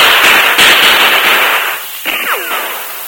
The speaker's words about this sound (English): Silver's warning saved us from being ambushed. We'll return the fire.